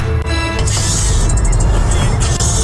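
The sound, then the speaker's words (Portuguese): A car driven at high speed in Manchester, England, producing a loud, constant rumble of engine and road noise mixed with rushing wind. “Este vídeo mostra um homem na cidade inglesa de Manchester cheirando o gás do riso enquanto dirige em alta velocidade.”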